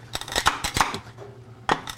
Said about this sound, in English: to crush peppercorns, what I like to do is just put them out on the counter. And then we're going to take a pan.